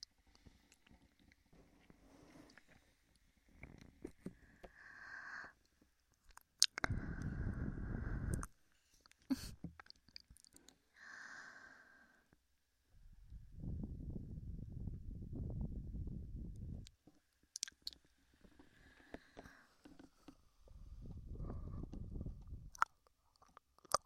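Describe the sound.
Someone chews strawberry-flavoured food in a few separate bursts of soft, wet mastication and crunching, separated by quiet gaps, with faint clicks between the bouts.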